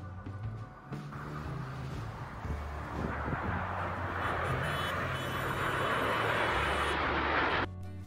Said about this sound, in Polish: A teraz piękny pokaz sił powietrznych Zjednoczonych Emiratów Arabskich nad Abu Zabi.